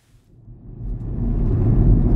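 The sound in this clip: Car driving through County Sligo, Ireland: a low engine rumble that builds steadily in loudness over about two seconds.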